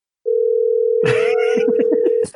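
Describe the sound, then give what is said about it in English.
Steady unbroken electronic tone of an incoming caller's phone-line signal, holding one pitch for about two seconds, with other clattering sounds layered over it partway through before it cuts off. “What's that sound? What's that sound? I've got a big blinking red light on my, my dashboard here. We got a caller.”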